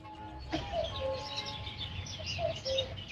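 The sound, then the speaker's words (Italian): Small birds singing at dawn, a few short, clear chirps and thin twittering notes repeating at irregular intervals, fairly faint over a soft background hush. “Questo è il suono del risveglio, gli uccellini che cantano.”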